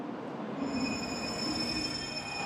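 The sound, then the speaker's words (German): Nozomi Shinkansen high-speed train running, a quiet, steady rushing rumble of rolling stock with thin, sustained high whining tones held over it, and no voices. “Nozomi. Die schnellste Zugkategorie mit nur wenigen Halten bis Tokio.”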